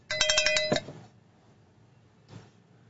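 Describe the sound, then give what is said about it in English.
A cowbell sound effect sounds as a quick burst of several bright, metallic clanks in rapid succession, then fades to near silence. The whole thing is fairly faint. “Fuck it, I'm giving myself a cowbell for that.”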